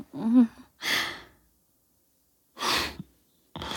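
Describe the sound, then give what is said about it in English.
A sharp inhaled gasp among a few soft, breathy breaths separated by silences, with a brief low voiced sound at the very start. “Oh, that spot always makes you suck in a breath.”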